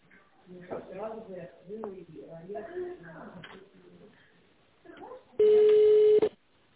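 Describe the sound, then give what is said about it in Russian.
A telephone ringing tone plays as a company call is transferred to a manager. A recorded voice speaks first, then one loud, steady beep holds for about a second. “Звонок переводится на вашего менеджера.”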